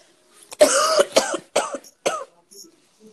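A person coughing and choking: a series of harsh, loud coughs in separate bursts, the first drawn out and the later ones shorter, ending with a fainter one, with quiet gaps between them.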